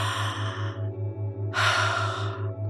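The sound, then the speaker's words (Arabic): Slow breathing in and out through the mouth during a calming exercise for a panic attack: two soft, airy breaths separated by a pause, over a steady, pulsing low hum. “تنفسي شهيق زفير على مهلك من تمك”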